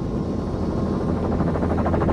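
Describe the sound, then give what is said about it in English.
Two helicopters circle before landing on a bear-watching flight, giving a steady, heavy rotor drone. Low-pitched thumping chop becomes more clearly pulsed toward the end, with no voices. “Both helicopters circle for a minute and then land about 50 yards away”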